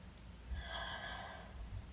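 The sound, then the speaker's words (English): A slow, deep inhale during a guided breathing exercise, heard as a faint, airy rush of breath that swells and fades over about a second against a quiet hum. “Each breath sinking us further into this moment. Breathe in.”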